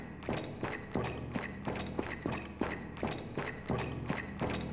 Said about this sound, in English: you see this faint crimson glow as the steps continue much louder now